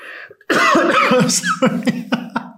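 Coughing from a tickle in the throat: a rough, voiced throat sound is followed by a few short, sharp coughs spaced in a loose rhythm.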